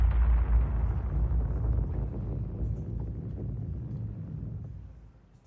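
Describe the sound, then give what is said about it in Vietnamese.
A huge explosion as a wooden crate packed with explosives hits the ground. A deep, heavy rumble holds steady for several seconds, then fades at the end. “Chưa kịp chạy, cái thùng gỗ đã rơi xuống đất, rồi một tiếng nổ long trời lần nữa vang lên.”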